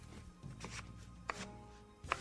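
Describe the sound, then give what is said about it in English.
A knife cuts up an apple with a few soft, crisp cutting snaps, the sharpest two coming late, all quiet over faint rustling. “So we just cut that right up, put it in there. Cut up that apple.”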